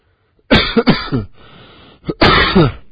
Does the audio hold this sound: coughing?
yes